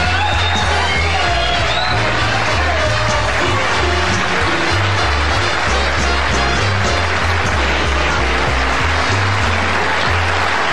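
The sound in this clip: A studio audience cheers and applauds to welcome comedian Norm Crosby, a dense, steady roar of clapping and whoops that holds at full strength for the whole stretch.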